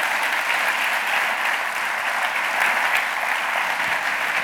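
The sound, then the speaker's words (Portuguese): An audience applauds with dense, steady clapping that stays loud and even for the whole stretch, with no pauses and no talk over it. “Podem-me aplaudir agora. Podem-me aplaudir.”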